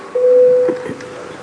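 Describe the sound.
Voting bell rung in the Latvian parliament, the Saeima: a single steady, fairly loud tone held for about half a second, then a faint murmur of the chamber.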